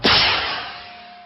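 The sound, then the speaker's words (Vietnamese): A flare gun fires a flare up into the air from the top of a banyan tree: one sharp, loud burst that trails off into a long hiss, fading slowly over about a second. “lấy khẩu súng bắn pháo hiệu ra. Đùng một phát, quả pháo sáng vút lên từ ngọn cây đa.”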